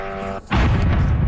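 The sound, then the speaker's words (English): A drone strikes an apartment building in Kyiv: a steady buzzing tone with clear harmonics cuts off briefly, then a loud, broad explosive blast erupts and rumbles on to the end. “That is one drone hitting an apartment building in Kyiv.”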